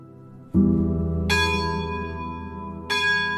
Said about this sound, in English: We hear the bells now ringing behind us. What do these bells signify? They signify we are right now the conventual mass, which is going on during my interview,